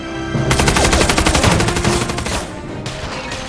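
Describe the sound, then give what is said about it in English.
Rapid gunfire in a film battle against an army of terracotta soldiers: loud, dense bursts of rattling shots for about two seconds, then a quieter trailing rumble and a few scattered reports. “Rick and Evelyn hold off the army with gunfire”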